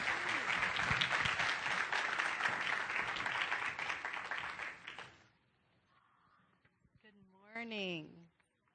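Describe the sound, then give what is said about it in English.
Church audience applause as a woman speaker takes the stage: loud, dense clapping for about five seconds that fades out, then a woman begins talking. “Please give her your full attention. Let's give her a hand as she comes and takes the stage.”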